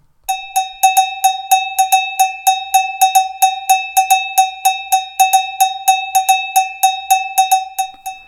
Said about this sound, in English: now it's time for your cowbell tip of the day.